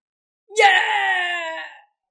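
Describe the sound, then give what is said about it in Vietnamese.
A single miserable scream of pain rings out in a fantasy battle scene, loud and piercing. It starts abruptly, holds strongly for over a second, then trails off, alone against silence. “Rốt cuộc lại có người phát ra tiếng kêu thảm thiết, bị Diệp Phàm”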